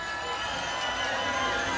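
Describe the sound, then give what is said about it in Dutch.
An audience applauds and cheers, a dense, continuous wash of clapping and crowd noise that holds steady without a break. “Mag ik even een heel mooi groot applaus voor onszelf, want je ziet fantastisch hier vandaag.”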